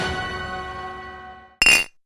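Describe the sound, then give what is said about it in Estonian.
An empty glass jar clinks: a lingering bright ringing tone slowly fades away, then one sharp clink cuts in near the end and rings briefly before stopping. “Supp valmis, aga kuhu see tühi klaaspurk käib? Rohelisse konteinerisse. Kas kaanega koos?”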